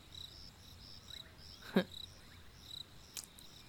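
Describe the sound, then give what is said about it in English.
Crickets chirping, with faint, thin high pulses repeating in a steady rhythm and a brief soft click partway through. “You know, there's also crickets.”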